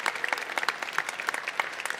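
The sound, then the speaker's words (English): A church audience applauds to thank a ministry worker, with many overlapping claps in a dense, lively patter that stays steady throughout. “So would you join me in applauding and thanking, and that's how we are thanking Shirley today?”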